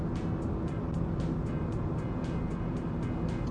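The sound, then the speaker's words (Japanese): Car engine held at full throttle on an uphill highway, speed stuck around 100 km/h: a steady broad roar of engine, road and wind noise with a rapid series of soft, regular thumps repeating through it. “あれなんか100キロ以上出なくなった。今俺アクセル全開なんだけど、わりかし全開なんですけど”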